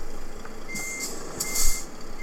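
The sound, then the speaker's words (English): Reversing beeps from a truck backing up to a trailer in a driving video game. A few high electronic beeps repeat over a continuous low engine rumble. “And now I'm reversing.”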